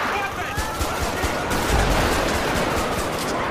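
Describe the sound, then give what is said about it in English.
Automatic gunfire from a police-patrol video game, where a suspect in a ravine opens fire with an automatic weapon: a dense, continuous crackle of rapid shots that stays loud throughout. “shots fired. We got one down in the ravine here. He pulled out an automatic.”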